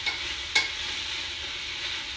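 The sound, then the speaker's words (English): Soft, continuous sizzling of melted butter in a hot pan being stirred with a wooden spatula, a steady hiss broken by a couple of faint scrapes. “I have a wooden one here. And we're just gonna mix them up for a second. Sort of get all the heat and butter distributed.”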